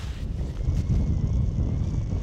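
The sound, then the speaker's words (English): Strong wind on the summit of North Twin in freezing cold, blowing a steady 15 to 20 miles per hour, heard as a continuous low, buffeting rumble across the microphone with no let-up. “After hours of hiking, at the top of North Twin, the thermometer still reads 1 degree, and the wind meter shows a steady 15 to 20 miles per hour.”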